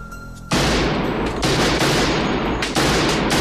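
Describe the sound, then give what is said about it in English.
Rapid, continuous gunfire in a shooting gallery bursts in after about half a second of quiet. It stays loud and dense throughout, with only brief dips between volleys. “In the shooting gallery, Axel watches Carla fire at the projection.”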